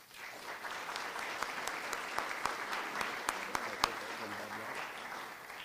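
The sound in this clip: Audience applause welcomes performers at a free Sunday evening community concert: a steady, dense wash of clapping that holds for the whole stretch, with a few sharper individual claps standing out.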